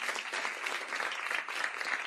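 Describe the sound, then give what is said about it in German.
Audience applause for a woman who has taken part on stage at a German variety or comedy show: a fairly soft but continuous wash of many hands clapping at a steady level. “Einen Applaus für die Dame,”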